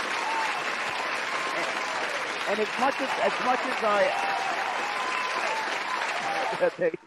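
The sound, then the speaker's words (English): A crowd applauding in a dense, steady wash of clapping that lasts about seven seconds, with some voices calling out partway through before it thins at the end. “you deserve a round of applause for it”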